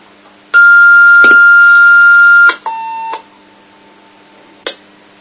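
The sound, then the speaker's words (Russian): Railway radio call tone sent by a train driver to a station duty officer as the train approaches the station: a loud, steady electronic tone lasting about two seconds, then a shorter, lower tone, followed by a brief click. “Слушаю, хорошо, вызов даю.”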